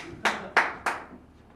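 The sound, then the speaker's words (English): Three sharp hand claps from a single audience member at a stand-up comedy show, evenly spaced and fairly faint, each decaying quickly into quiet. “Hey, who just clapped? Fucking clap louder, asshole.”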